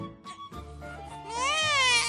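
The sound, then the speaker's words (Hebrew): A baby cries inside a house, starting with short, broken whimpers and then breaking into a louder, sustained high-pitched wail that wavers and holds through the end. “אבל התינוק גדל, וכשהוא בכה,”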